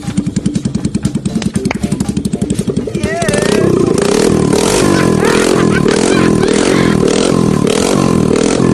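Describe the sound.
A motorbike engine is kick-started while its wiring is tested. It sputters with rapid, regular firing pulses for about three seconds, then catches and runs loudly and steadily.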